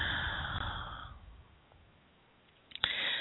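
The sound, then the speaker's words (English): Deep breath blown out hard, a loud rushing exhale that fades over about a second into quiet, followed by a short, sharp breath noise near the end. “Deep, deep, deep breath. And blow it out hard.”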